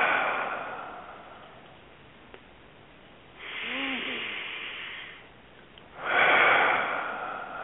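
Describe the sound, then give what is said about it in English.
A deep breath in during a guided meditation comes as a long, airy inhale that swells loudly near the end, after a softer voiced passage. “With a big breath in”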